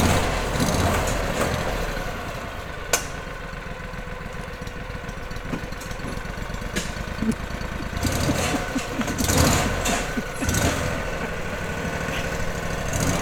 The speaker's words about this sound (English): You gotta keep the gas on it. Well, we're gonna follow the gator up this dirt path.